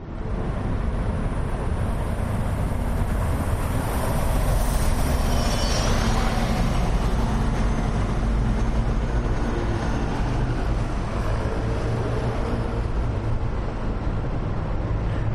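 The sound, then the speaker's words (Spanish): Street noise on Calle Goya, a main shopping street in Madrid, forms a steady low rumble of passing traffic. A passing vehicle adds a brief whine partway through. “hoy me ha resultado extraño que el sonido de una de las principales calles comerciales de Madrid fuera este.”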